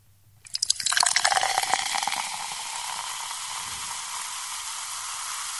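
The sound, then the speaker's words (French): A sound effect of beer being poured opens with a burst of gurgling splashes, which settles into a steady, quiet, fizzing hiss that carries on to the end. “Et non, c'est pas moi qui verse de la bière. C'est un effet sonore cette fois-ci.”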